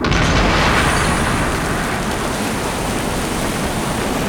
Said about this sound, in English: The volcano's erupting!